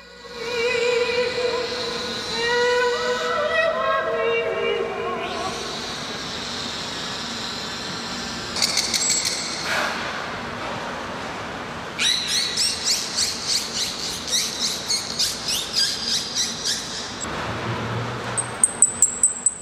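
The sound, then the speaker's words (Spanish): A beluga whale in an aquarium vocalizes in a duet with a male countertenor. Sustained sung tones give way to high whistles, rapid pulsed clicking bursts and sharp high squeaks at the end. “estamos escuchando a una beluga cantando con Jarowsky”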